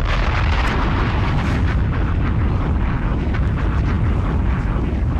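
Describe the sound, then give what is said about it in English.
A bomb explosion sound effect: a dense, roaring rumble heavy in the low end that holds at a steady, loud level throughout, with no pause or clear separate blasts. “Bombs!”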